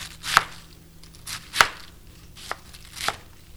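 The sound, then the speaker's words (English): A knife chops quartered and halved cabbage into 1-inch chunks, making four crisp, fairly faint cuts at uneven intervals, with no other sound around them. “I've quartered the cabbage and then halved each of those quarters and cutting them into 1-inch chunks.”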